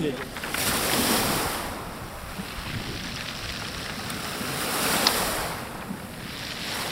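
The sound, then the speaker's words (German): Sea waves wash over a pebble beach at a fenced-off seaside district beside the Black Sea, a broad, steady rush of surf that swells gently twice, with some wind noise. “Rund 30 Kilometer vom Stadtzentrum entfernt liegt der Ortsteil Adler direkt am Meer. Rostige Metallgitter sperren den Zugang zum einst beliebten Kieselstrand ab.”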